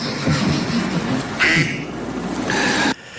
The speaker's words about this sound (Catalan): Ho heu sentit bé? És el so d'un ànec.